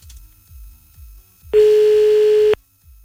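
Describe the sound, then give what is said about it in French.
One telephone line tone sounds while a listener is being called back: a steady, single-pitched beep of about a second, loud and alone, preceded by a few faint low thumps. “Allez, c'est parti, on y va, on rappelle tous les numéros que vous avez envoyés sur le mail de Toff”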